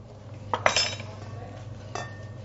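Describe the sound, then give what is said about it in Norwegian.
A utensil clinks against a bowl while strong mango chutney with chili is mixed: a few short metallic clinks bunched together early, then one more later, over a low steady hum with no talk. “Dette her blir en sterk, deilig mango chutney. Blander dette rikelig sammen.”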